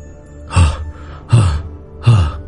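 Heavy, tired panting of a worn-out fighter in the middle of combat: three loud, rough breaths, evenly spaced, with quieter breathing between them.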